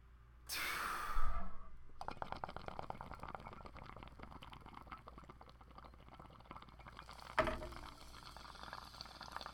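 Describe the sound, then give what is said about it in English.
A hit of marijuana: a quick breath in, then a long stretch of crackling, bubbling draw, and a sharp, breathy exhale near the end. “Okay, I'm gonna smoke this toke. Three, two, one, blast off.”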